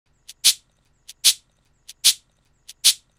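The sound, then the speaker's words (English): A cabasa, ribbed metal percussion with beads, is played in a steady rhythm: four evenly spaced pairs of bright scraping shakes, each a light short tick followed by a louder swish, heard alone. “I recorded a cabasa. It's a cool rhythmic instrument with this ribbed metal that you turn beads on, and it sounds like this.”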